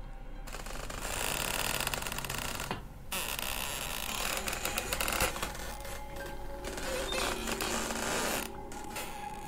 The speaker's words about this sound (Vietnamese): cửa từ từ mở ra. Tiếng cánh cửa rít lên nặng nề.